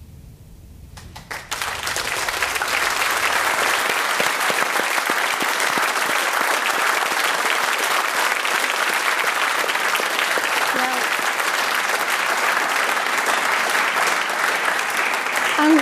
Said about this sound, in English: Did you hear the applause for your lecture?